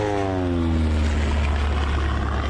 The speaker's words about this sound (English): The plane banked hard left, subjecting the two men to immense negative G-forces. Bad decision now. He banked hard left again to try and cross back over the valley in the direction he had come.